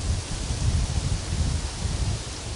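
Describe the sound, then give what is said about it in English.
Wind blows outdoors, slightly shifting direction, as a constant, fairly loud rushing and rustling hiss with a low, gusty rumble that stays unbroken from start to finish. “Do you hear the wind, which is now even slightly changing direction? Now it's coming from behind your back, in a way.”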